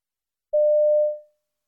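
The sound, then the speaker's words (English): A single steady electronic beep from a telephone answering machine: one mid-pitched tone lasting under a second, fading out against silence. “You hear a message on a telephone answering machine.”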